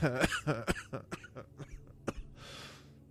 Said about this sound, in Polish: Przepraszam. Zaczynam kaszleć jak Ator.